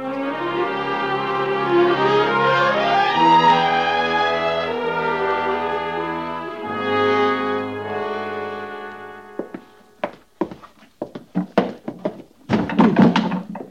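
Boxes are moved into a woman's quarters and set down by a lieutenant: a stretch of sustained music gives way to a series of irregular heavy thunks and knocks, some in quick clusters, with no voices.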